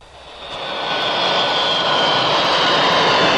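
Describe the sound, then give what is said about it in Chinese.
Jet engine roar from a passenger flight from Tokyo landing at an airport in Qingdao, swelling over the first second and then holding steady and loud, with no voices. “凌晨时分，来自日本东京的航班平稳降落在青岛胶东国际机场。”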